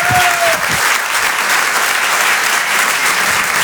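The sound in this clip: An audience at the Apollo applauds a comedian arriving on stage, with steady, dense clapping throughout and a brief whistle at the very start.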